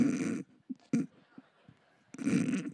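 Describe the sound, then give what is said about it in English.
Air blown forcefully out through the nose in two rough, noisy snort-like rushes, one at the start and a longer one at the end, with a few faint small sounds between them. “I can barely blow no air out of my nose.”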